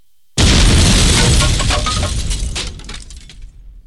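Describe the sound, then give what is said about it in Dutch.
Explosion sound effect followed by falling wooden planks: a sudden, loud, full-bodied blast that gradually decays into a tail of scattered clattering and crashing debris hits, with no voices. “Een van mijn favorieten is bom en planken. Mooi aan bom en planken is dat het een bom is. Ja, het woord zegt het eigenlijk al. En er planken achteraan.”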